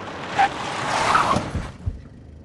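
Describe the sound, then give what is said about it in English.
A Skoda car is slammed into gear and speeds off toward a crossroad, a loud broad engine and road roar that swells, holds, then cuts away fast, with a few low thumps near the end. “They slam the Skoda into gear and speed to a crossroad.”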